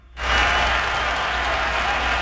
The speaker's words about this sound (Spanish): Pero hoy, déjame aplaudirle